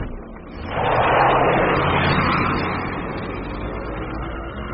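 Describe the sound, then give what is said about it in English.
A taxi drives off in pursuit, its engine swelling quickly into a loud roar, holding briefly, then easing to a steadier, quieter drone as it pulls away. “That old woman's getting into a taxi. I better step on it. Taxi! Taxi! Hey, man, follow that vehicle.”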